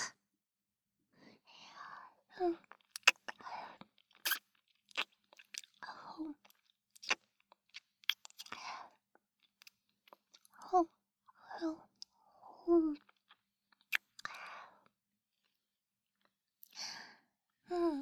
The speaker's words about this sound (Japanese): おいしい。もっともっと食べさせて。